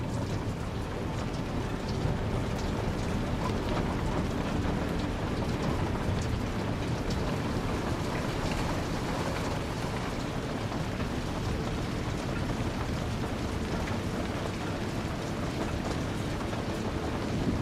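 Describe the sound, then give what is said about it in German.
Rain drumming against window panes, a steady, even wash of dense patter that holds at one level throughout with no pauses. “Der Regen trommelt rhythmisch gegen die Fensterscheiben.”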